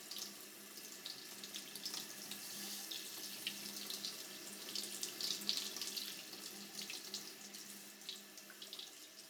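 Warm water poured over the ears during ear washing, a steady, soft trickling splash that runs without a break and stays fairly faint throughout.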